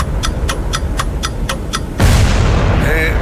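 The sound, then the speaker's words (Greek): A bomb explosion sound effect from a countdown game where time must be stopped before the bomb bursts: seven rapid, evenly spaced ticks give way to a loud roaring burst of noise, followed by a high ringing whine. “Σταμάτα το χρόνο πριν σκάσει η βόμβα.”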